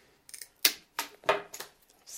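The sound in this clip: Sharp snips as a pencil-thick clematis vine is cut to length for a small wreath, about half a dozen short, crisp cuts with brief pauses between them.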